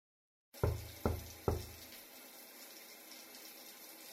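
A shower runs with a steady, even hiss, and three firm knocks sound on the door near the start.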